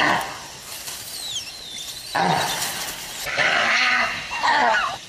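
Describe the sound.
Proboscis monkey calls: harsh, nasal honks and groaning bursts, some with sliding whistle-like pitch sweeps, loud and repeated in several uneven phrases.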